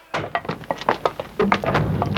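Gun-port shutters slammed shut: a rapid run of many hollow wooden thunks and knocks, irregular and overlapping, fairly loud throughout.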